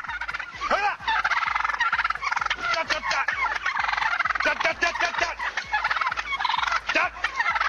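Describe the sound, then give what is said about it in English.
Wild turkeys in a road gobbling loudly and repeatedly, with harsh, rattling calls overlapping almost without pause. “You don't want no wild turkeys. Get out of the road.”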